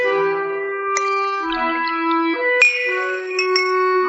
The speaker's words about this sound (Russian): Нацеди-ка ему тише стаканчик. Пусть и мое выпьет.